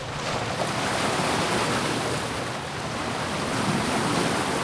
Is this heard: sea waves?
yes